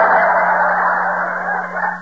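A chicken clucks and squawks continuously, loud and without pause, over a low steady hum.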